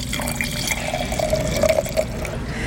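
Red Zinfandel wine, a high-elevation claret-style bottling, is poured in a steady, gurgling stream of liquid with faint splashy trickles, heard alone without talk.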